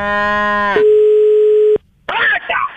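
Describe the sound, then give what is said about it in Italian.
Telephone ringback tone while calling someone: a loud, steady electronic tone, buzzy and rich at first and then a single pure pitch, cuts off abruptly. After a brief silence comes a burst of rough, noisy sound. “Allora, facciamo una cosa: visto che sei a Milano, lo chiamo adesso. Sì? Lo chiamo e ci parli tu.”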